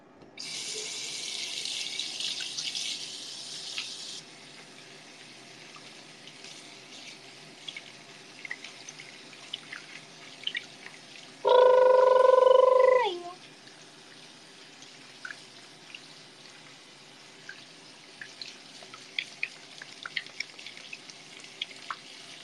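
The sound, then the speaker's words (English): Hands being washed under a running tap: a few seconds of steady hissing water at the start, then a long quieter stretch with scattered faint drips and clinks and one brief, louder tonal burst partway through. “I'm gonna wash my hands.”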